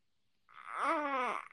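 A baby makes one small, soft vocal noise, a brief whimpering sound held for under a second and heard alone against near silence.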